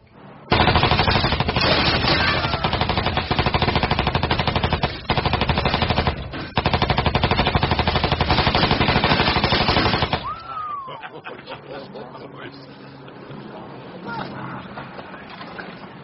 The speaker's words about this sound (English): Rounds per magazine, 45 caliber. They called it a trench broom. You can see why.